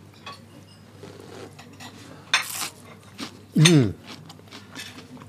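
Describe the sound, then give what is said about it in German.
Spoon-and-bowl sounds while tasting broccoli cream soup: two sharp, bright clinks of metal on crockery stand out against a quiet, steady low hum, with faint rustling in between. “So, ich probiere jetzt als allererstes mal mein Brokkoli-Cremesüppchen.”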